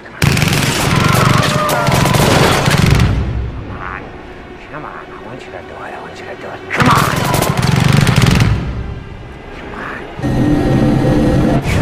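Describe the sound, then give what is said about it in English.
Machine gun fire in a film, with heavy, booming, bass-rich shots in three long sustained bursts separated by quieter stretches. “And the sound design too, when he's firing the machine gun, like that thunder, like that sound design is impeccable. Just the thunderousness of the shots from the machine gun have the real bass to them.”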